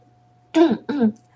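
A young man's dry cough, two short harsh bursts close together, heard alone over a faint steady hum.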